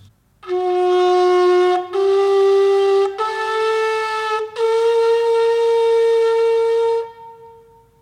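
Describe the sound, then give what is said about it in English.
A larger ancient horn is blown in a loud, buzzy, harmonic-rich note held at a steady pitch. The note runs for several seconds, broken by three brief gaps, and its final stretch is the longest. “The smaller of these two horns has a very jagged edge to its mouth hole, but the larger sounds like this.”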